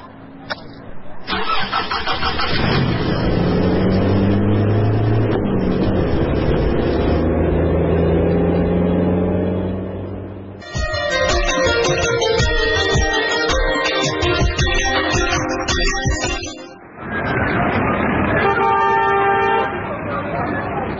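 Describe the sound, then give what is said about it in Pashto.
A car engine starts and keeps running as the car is driven off, loud and steady throughout, with two brief dips in level partway through. “موټر روان کړه”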